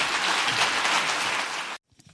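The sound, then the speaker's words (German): Audience applause at an East German economic forum: dense, steady clapping from a crowd that holds an even level for under two seconds, then cuts off abruptly into near silence. “Auch dafür bekommt Friedrich Merz in Bazzaro viel Applaus.”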